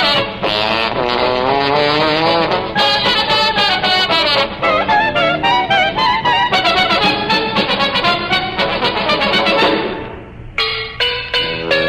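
Race car sound effects depict the Indianapolis automobile race: loud, buzzing engine whines rise and fall in pitch in rapid repeated passes, then cut out briefly near the end before resuming.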